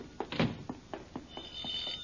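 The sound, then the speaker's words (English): A home telephone rings with a rapid trilling pattern of short repeated pulses, fairly quiet and steady, with no talk over it. “Oh, the phone. I'll get it,”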